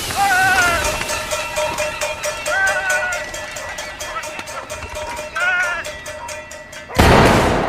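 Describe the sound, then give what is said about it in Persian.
A spoon bangs rapidly and steadily on a metal dish to scare birds away, with many even metallic strikes running throughout and a louder burst of noise near the end. “یه نفر با یه قاشق روی ظرف فلزی میزنه و پرنده ها رو فراری میده”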